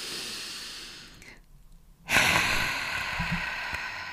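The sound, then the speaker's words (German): A deep breath drawn in and let out: soft, airy breathing hiss broken by a short quiet gap, heard alone without talk. “Dann atme mal ganz kurz mit mir tief ein und aus.”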